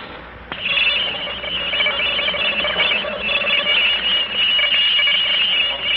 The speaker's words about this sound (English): I'm about to play a tape recording for you of the noise pattern that came from outer space earlier this evening.